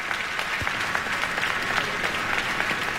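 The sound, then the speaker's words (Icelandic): Audience applause for a duo at the closing concert of an arts festival: a dense, steady patter of many hands clapping, loud and even from start to finish, with no voices standing out. “Og tvíhekjunum var að vonum vel fagnað á þessum lokatónleikum listahátíðar í Elborg.”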